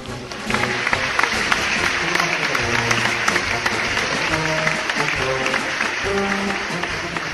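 A circus audience applauds a troupe of acrobats, a monkey among them, with dense, continuous clapping that holds at an even, fairly loud level throughout.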